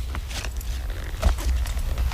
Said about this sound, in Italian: Intanto sentite questo calpestio dell'ultima traccia di questo lavoro.